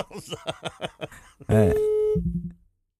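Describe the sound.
Telephone busy tone on a radio phone-in line after the caller hung up: a voice talks first, then a steady electronic tone sounds, followed by a few short, lower pulsed beeps before silence.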